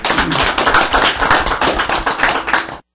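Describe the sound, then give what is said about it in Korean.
An audience applauds after a worship song with loud, dense clapping in a pulsing, uneven rhythm. It stops abruptly just before the end. “예, 우리 박수”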